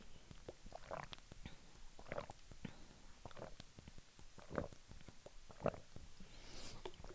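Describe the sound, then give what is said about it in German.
Someone drinks about 100 millilitres of water, making many faint gulps and soft wet clicks at irregular intervals, with a few slightly stronger swallows standing out from the quiet. “Ich trinke aber vorher mal 100 Milliliter.”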